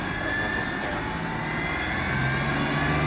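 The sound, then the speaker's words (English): Car driving: a steady, low engine and road rumble holds at an even level throughout, with a couple of faint high chirps early on. “Now we're driving, obviously.”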